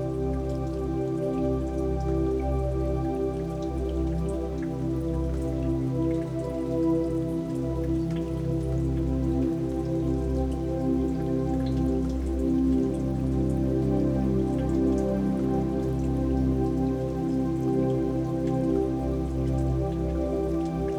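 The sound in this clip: Rain falls steadily in a soft, continuous patter of drops on a surface, even in level throughout, with a low sustained hum running beneath it.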